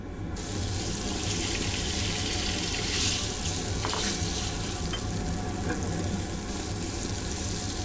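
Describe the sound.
Steady, dense sizzling of beef and dried chili peppers frying in a pan, loud and continuous for the whole stretch with no voices over it.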